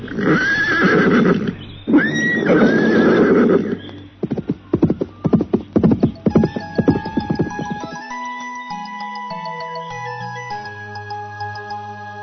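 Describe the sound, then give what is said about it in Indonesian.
A horse is ridden away: two loud neighs, then a quick, irregular run of clip-clopping hooves, followed by soft, steady musical tones stepping between pitches. “Dengan menunggang seekor kuda, Putri Adipati dan Joko meninggalkan kadipaten.”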